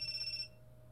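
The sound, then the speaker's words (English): A mobile phone rings with an incoming call, a quiet, high electronic warbling tone that cuts off about halfway through, leaving a low steady hum. “There's an incoming call from God.”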